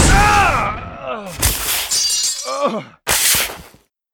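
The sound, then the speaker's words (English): A concealed sci-fi disruptor energy gun firing: sweeping tonal whines break into harsh, crackling bursts, ending in a final loud blast that cuts off sharply into silence. “He sensed as much as saw Brett draw his disruptor and was already turning when the gun fired.”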